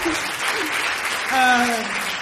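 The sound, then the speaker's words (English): A concert audience applauds and cheers for the band with dense, steady clapping throughout, and a short cheer rises above the clapping just past the midpoint. “Make some noise for your amazing band.”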